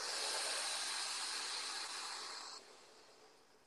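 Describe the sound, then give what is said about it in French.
A long, steady breath of air, taken during a guided relaxation breathing exercise, comes through as a broad, soft hiss that holds evenly for about two and a half seconds, then drops away and fades out quietly with no talk. “Alors, une respiration ensemble. On va remplir ses poumons d'air. Et on relâche tout.”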